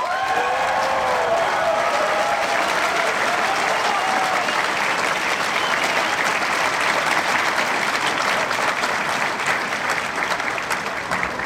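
Loud, dense applause from an audience welcoming a game designer onto the stage at a video game industry event, sustained evenly for the whole stretch without a break.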